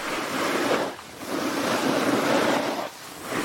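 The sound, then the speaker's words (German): Snowboard riding down a snowy slope, a broad, rushing hiss of the board scraping across snow that swells and holds steady, broken by two brief lulls. “Und ihr hört es direkt, wir sind beim Snowboarden und damit sind wir beim deutschen Parasnowboard-Pionier Christian Schmid”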